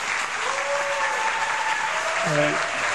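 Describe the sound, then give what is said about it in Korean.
Audience applause at a church gathering for a missionary returning to Korea, a dense, steady wash of clapping throughout, with a voice speaking over it near the end. “같이 한번 큰 박수로 한번”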